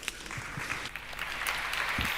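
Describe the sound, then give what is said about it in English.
Audience applause at a talk event: a steady, fairly faint patter of many hands clapping that continues throughout. “So let's give them a quick round of applause.”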